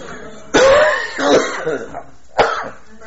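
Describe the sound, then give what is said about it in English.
A person coughs: a few harsh, rasping coughs in separate bursts, the first and loudest near the start and another sharp one toward the end, with no talking. “It's just a stupid cough.”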